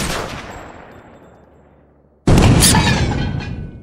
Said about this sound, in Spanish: Cabo Mackenzie, lanza una granada y deshágase del francotirador